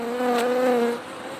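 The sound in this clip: A housefly buzzes as it flies, a steady nasal hum with a slight wavering pitch. It grows a little louder in the middle, then drops to a softer drone for the last half second.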